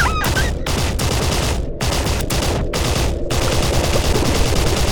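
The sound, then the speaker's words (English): Rifles fire repeatedly in a loud, sustained volley, dense overlapping shots running through the whole stretch with only a few brief breaks, no voices heard. “Shoot it! Shoot it! Keep firing! Keep firing!”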